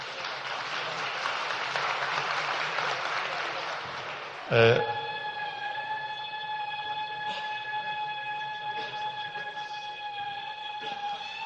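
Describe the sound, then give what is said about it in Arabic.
Applause fills the opening, then a long, high, steady celebratory zaghrouta ululation rings out alone to the end, sustained at one pitch with rich overtones. “دي زغروطة دي.”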